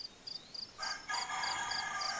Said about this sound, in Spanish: ya está el gallo, ya está cantando